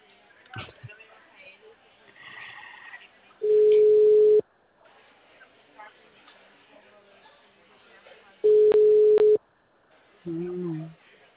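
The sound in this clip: A telephone ringback tone sounds while a call waits to be answered: two steady, single-pitched beeps separated by several seconds of low background noise.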